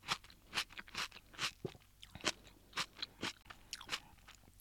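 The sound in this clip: Napa cabbage cooked in Japanese hot pot broth is chewed with crisp, crunchy bites, many quick irregular crunches at a soft level, with no talking.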